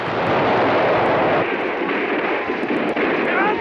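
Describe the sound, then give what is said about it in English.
Dynamite explosions in a battle between Mexican and French fighters: a loud, sustained rumbling roar of blasts with sharp cracks scattered through it. “The Mexicans continue to hurl sticks of dynamite at the French.”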